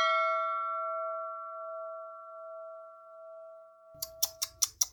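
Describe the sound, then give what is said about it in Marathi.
A school bell rings with a single clear, sustained tone that fades slowly over about four seconds, followed by a few sharp clicks. “पण तेवढ्यातच घंटा झाली.”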